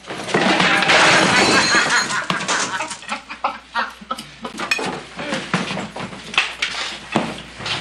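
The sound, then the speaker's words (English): A tray of dishes crashes as a waiter is tripped in a film scene. A loud, dense burst of breaking and clattering gives way to scattered knocks, rattles and bangs. “And Liberty Valance bullies him and trips him up as he's trying to carry a tray until Donovan, John Wayne, steps in.”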